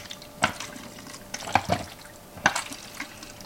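Developer chemicals slosh inside a film developing tank loaded with one reel as it is inverted, giving a few soft liquid swishes and light knocks spaced about a second apart, faint and with no talk.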